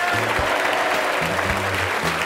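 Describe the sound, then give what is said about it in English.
Crowd of Murfers cheering as a story sound effect, celebrating after Remora Ocelot is caught: a steady, dense wash of cheers and clapping that holds at an even level throughout, with a faint low tonal layer beneath. “Together, Benny and Tina had caught Remora Ocelot. They made him return the other competitors and saved everyone. The Murfers all cheered for them.”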